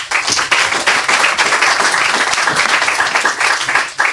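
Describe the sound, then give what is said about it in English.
Audience applause at a children's author reading event: dense, steady clapping that stays loud and unbroken for the whole stretch, with no talk over it. “Make some noise for our next author, Niall O'Connor.”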